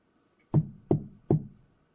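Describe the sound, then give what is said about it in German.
Three dull, low knocks tapped in quick, even succession on parts being checked for loose or broken damage. Each knock is short with a brief ringing decay, set against near silence. “Wenn etwas lose ist oder gebrochen, dann hört man das am Klang. Ich klopfe”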